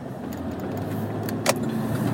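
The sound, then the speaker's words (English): A car being parked after a drive through traffic: a steady low engine and road rumble runs throughout, with a brief faint click near the middle. “I'm just out here fighting traffic. All right, so I just parked here”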